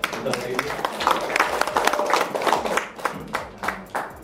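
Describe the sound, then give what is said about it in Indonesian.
Applause rings out for Idea Fest at a panel talk, a dense round of clapping from an audience that carries on steadily for several seconds with voices mixed in. “saya mau invite dulu satu big round of applause dulu nih untuk Idea Fest nih”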